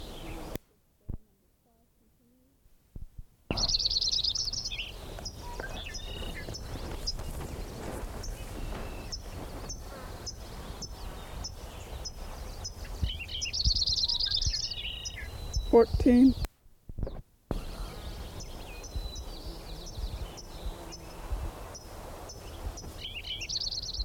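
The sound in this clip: A sparrow sings in a few high, thin, buzzy phrases over a steady noisy background scattered with many sharp clicks, with brief silent gaps between stretches.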